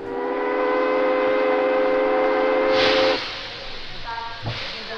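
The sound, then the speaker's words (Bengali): A departing train lets out a loud, steady steam whistle with a rich, layered tone for about three seconds. Hissing steam and softer rumbling follow. “Train ছেড়ে দিল।”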